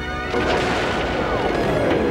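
Starship weapons fire striking the ship: a loud, dense, sustained blast of crashing noise kicks in after a brief lower lead-in, laced with sweeping whining tones that glide across the roar.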